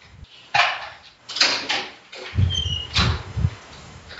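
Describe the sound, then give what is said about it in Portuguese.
Clunks and rattles from a house door with several locks, bolts and a padlock being unlocked and swung open. A series of sharp knocks comes first, then heavier, lower thumps. “Agora dá licença que eu tenho que abrir a porta ali.”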